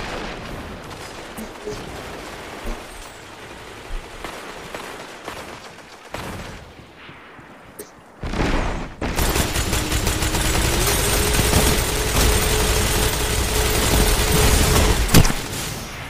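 Gunfire in the video game Destiny 2 during a multiplayer match: a few sharp scattered shots at first, then a loud, dense stretch of continuous firing that carries on to the end.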